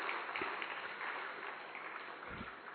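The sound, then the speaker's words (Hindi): Applause from an audience at a religious gathering, a faint, steady wash of clapping that continues through the whole clip. “आप सब अपने लिए एक बार जोरदार ताली बजाएं।”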